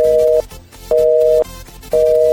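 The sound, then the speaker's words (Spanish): Telephone busy signal after the other party hung up: a loud steady tone pulsing on and off in regular bursts, three beeps separated by short gaps, with no voices. “Compañero, creo que nos han cortado la llamada. Al parecer nos ha colgado la señorita.”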